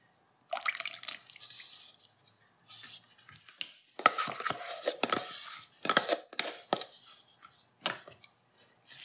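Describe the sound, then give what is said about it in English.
Whisking wet ingredients into dry for a gluten-free Irish soda bread batter: irregular bursts of scraping and clinking against the bowl, quiet overall, with short pauses between strokes and no voices. “I'm gonna add the wet to the dry and whisk it together. So here we go.”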